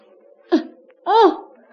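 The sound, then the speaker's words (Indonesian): A child sneezes after breathing in dust carried by dry-season wind. A short sharp intake is followed by a louder, longer voiced burst whose pitch arches up and falls away. “Akibatnya, kamu bersin-bersin seperti itu.”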